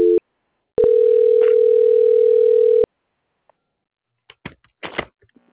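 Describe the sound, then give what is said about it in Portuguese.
A telephone line tone plays during a call transfer: a short beep, a brief pause, then a steady, unbroken tone lasting about two seconds. After the line goes quiet, a few faint clicks and rustles follow. “A linha ela fica muda enquanto eu faço a transferência, mas vou pedir para o senhor não desligar”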